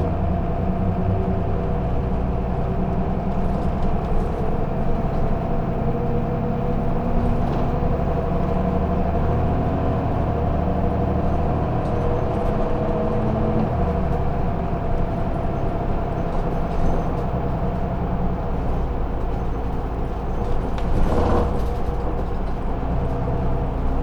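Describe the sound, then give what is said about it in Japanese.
Continuous low engine rumble and road noise inside a moving city bus, a dense, steady drone that holds level throughout with no talk. “このバスは和垣中山駅、田尻4丁目、両徳橋二つ目経由、元八幡駅行きでございます。”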